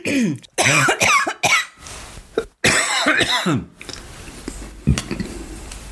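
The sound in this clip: Harsh coughing after a sip of sparkling wine comes in two loud bursts of several coughs each, followed by quieter scattered clatter.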